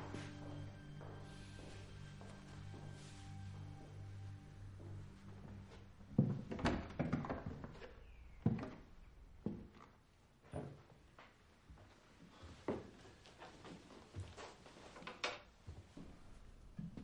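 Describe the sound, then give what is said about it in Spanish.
An office door is opened, heard as a few dull knocks and clicks after soft sustained tones in the opening seconds, the whole scene quiet. “finalmente abre la puerta del despacho sin llamar”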